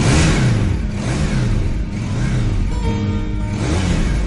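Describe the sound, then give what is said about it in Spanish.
A motorcycle engine revs in a garage after being started with a key, its low throbbing drone rising and falling repeatedly and loudly, with no talk. “coloca las llaves en el contacto y arranca.”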